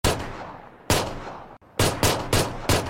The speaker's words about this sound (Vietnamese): Trong nháy mắt tiếng súng vang lên.